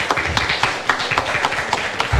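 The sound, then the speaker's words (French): Hand clapping from a small accounting team at a radio station celebration: a handful of people clapping in a brisk, uneven rhythm of distinct, sharp claps, fairly loud, with no talk over it. “Bon arrêt d'applaudissements pour l'équipe de comptabilité qui vient de se taper dans les mains ici.”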